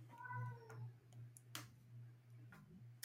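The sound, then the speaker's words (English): A cat meows in a video clip: one faint, drawn-out meow near the start, followed by a few sharp clicks against a low steady hum. “Is that a scary child or is that, what is that? That's a cat.”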